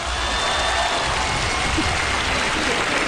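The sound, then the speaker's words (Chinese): Dense, even applause follows a sung passage in a conversation about Peking opera singing. The hiss of clapping holds at a steady level without breaks for about three seconds. “别给我鼓掌，我唱的不行。”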